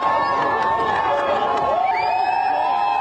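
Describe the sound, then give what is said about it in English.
Adoring fans cheering at the UConn men's basketball championship parade in Hartford, Connecticut: a steady, loud crowd roar with shrill whoops and shouts rising above it. “Do they love the UConn men's basketball team? That's the sound of the adoring fans at the championship parade today in Hartford, Connecticut.”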